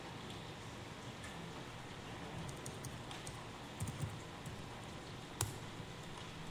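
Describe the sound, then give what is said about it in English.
Faint, sparse key clicks from typing on a computer keyboard, scattered irregularly over a steady soft hiss. “There. I'm going to type them.”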